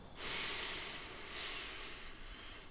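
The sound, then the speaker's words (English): A slow breath drawn in for a count of three during a relaxation breathing exercise: a soft, airy hiss that swells, eases, then rises again briefly over a few seconds. “Breathe in for three.”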